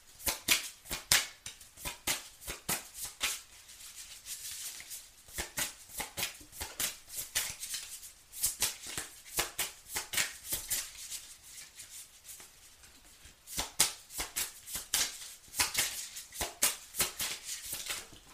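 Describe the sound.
A deck of cards being shuffled and drawn for an Aries card reading: several long bursts of rapid, crisp snapping and riffling, separated by short quieter pauses.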